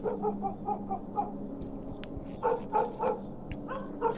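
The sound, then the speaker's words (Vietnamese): A black dog barks loudly and repeatedly. Many sharp, yipping barks come in quick clusters with short pauses between them, over a steady background murmur. “Ở đằng sau, con chó mực vẫn cứ sủa lên inh ỏi lên hồi.”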